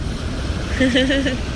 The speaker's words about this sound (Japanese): 埼玉はね、海がないから、やっぱこの海の音聞いてるだけで結構癒されます